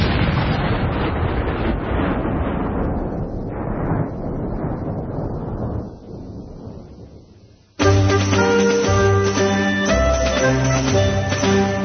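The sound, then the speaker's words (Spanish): A vast explosion engulfing a planet, its sun and the whole solar system, heard as a loud, broad roaring rumble that slowly weakens and fades for several seconds before music abruptly takes over. “estalló, engullendo en pocos segundos a todos los dioses, al planeta entero, al sol y a todo el sistema solar.”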